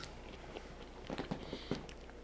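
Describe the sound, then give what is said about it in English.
Faint biting and chewing on a sweet, potato-like food cut into small squares and eaten like an apple slice, with a short cluster of soft, crisp clicks close together. “And you just bite off of it. Almost like an apple slice.”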